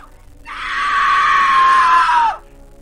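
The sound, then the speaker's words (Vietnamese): A woman screams during a frenzied fit in a quiet room. It is one long, loud, high-pitched cry held for nearly two seconds, then its pitch drops away at the end. “Tiếng hét của cô ta cất lên, xóa tan cái không gian yên ắng ở trong phòng.”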